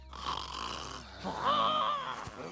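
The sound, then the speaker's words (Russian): Snoring from a furry sleeper in an animated film: one long, steady, rasping snore that swells in loudness partway through, with no voices. “И храпишь.”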